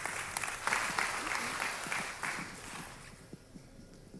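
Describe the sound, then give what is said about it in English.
An audience applauds to welcome a speaker to the stage. The clapping is steady and full for about three seconds, then thins and fades to scattered claps near the end. “So if you would do me a favor and put your hands together as I welcome Jen Pfister to the stage.”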